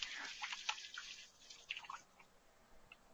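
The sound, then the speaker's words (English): Water splashing and dripping from a tap as hands are washed during cooking, soft and irregular with scattered small splashes and drips, no talk. “Wash my hands off here real fast.”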